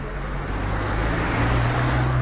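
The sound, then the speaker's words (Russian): A car moves along a narrow street, giving a steady, broad rumble of engine and tyre noise that swells slightly toward the end, with no voices. “Надо разъехаться на узкой улочке с машиной.”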